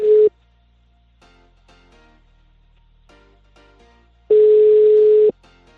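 A telephone tone signals a disconnected number: one short steady tone at the start, then a longer identical tone later. Faint crackles sit in the quiet gap between the two tones.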